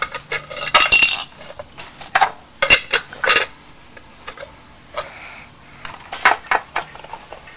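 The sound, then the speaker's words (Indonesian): A lid and crockery clink and clatter as tea is served, in several clusters of sharp metallic knocks separated by quiet gaps, loudest early on and again near the end. “Ibu mau tuang. Ini tutupnya ya? Tutup ini.”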